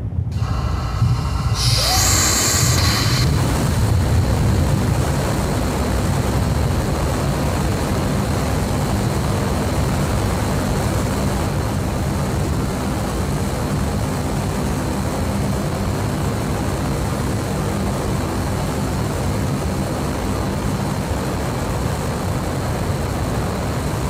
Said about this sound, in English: Let's go into some of the development testing. This is a Raptor firing.